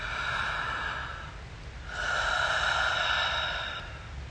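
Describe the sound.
Slow breathing, with an inhale through the mouth and a gentle exhale: two long, airy breath sounds of roughly two seconds each, separated by a short pause. They are steady and fairly loud, with no talk.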